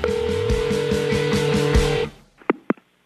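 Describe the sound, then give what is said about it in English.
Voicemail playback tones on a telephone: about two seconds of steady, layered musical tones, then two short, sharp beeps in quick succession. “It's time to check Adam's voicemail.”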